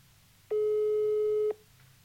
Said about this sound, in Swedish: Så jag skulle tycka att det var kul om vi kunde ringa upp Lovisa Almén och höra lite med henne. Vi gör det.